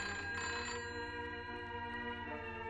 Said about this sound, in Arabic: التليفون. سيبيه يضرب، سيبيه يضرب على طول.